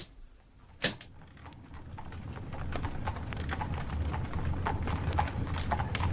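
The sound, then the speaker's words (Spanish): Horse hooves clip-clopping as a horse-drawn carriage pulls away: a quick, steady run of hoofbeats that continues throughout, with a sharp knock near the start. “El carruaje se alejó de la casa de la hiedra.”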